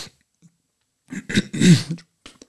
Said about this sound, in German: Entschuldigung, ich habe mich verschluckt.